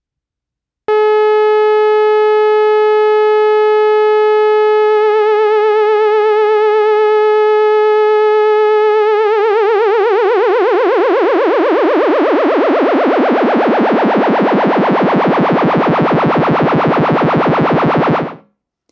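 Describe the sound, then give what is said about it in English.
A sawtooth tone from a Moog Mother-32 synthesizer buzzes steadily under slow triangle-wave frequency modulation. A gentle vibrato grows into a wide, smeared wobble in the second half before the tone cuts off. “So here is a saw wave, and I'm going to bring in some modulation, some really slow triangle wave based modulation, so it should sound like vibrato, something very simple.”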